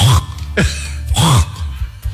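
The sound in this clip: A voice imitates throat clearing, mimicking a smoker with a tickle in the throat. It comes as a few short, gravelly, guttural bursts in an uneven rhythm, fairly loud and with no words.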